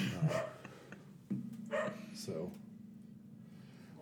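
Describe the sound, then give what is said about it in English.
An excited dog barks a few sharp, loud times in quick bursts, mixed with speech-like sound over a low steady hum. “Very sorry for my dog just losing his mind.”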